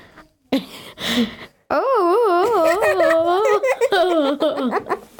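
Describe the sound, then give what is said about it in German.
A child's voice imitates a caterpillar with a stomach ache, starting with a few breathy, giggly sounds, then a long groaning wail that wobbles up and down in pitch and sinks lower as it goes. “In der Schule lesen wir gerade die kleine Raupe Nimmersatt. Ich möchte euch vormal machen, wenn sie Bauchschmerzen hat.”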